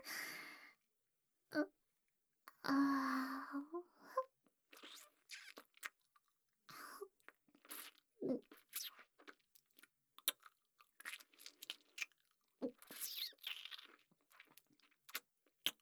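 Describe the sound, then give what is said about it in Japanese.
Soft food being chewed, in a string of small, irregular moist crunches and bites with brief pauses and an occasional breath between them, fairly faint throughout. “なんか絶妙に柔らか。噛めば噛むほど味が染み出てくる。”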